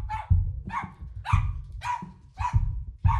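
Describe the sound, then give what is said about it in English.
A female dog barks six times in a steady, evenly spaced run. The barks are sharp and fairly loud, with no talk over them. “Excuse my dog, y'all.”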